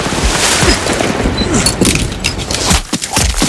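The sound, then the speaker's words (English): Battle gunfire as German soldiers shoot across a river at men defending a bridge, with a half-track rolling nearby: a loud, chaotic clatter of shots, thumps and impacts that dips only briefly near the end. “Directly across the water, Germans fire on them from the bank. A half-track rolls toward the bridge. Miller stretches over the barrier and grabs the detonator wire. As he pulls back, bullets whip into the sandbags by his shoulder.”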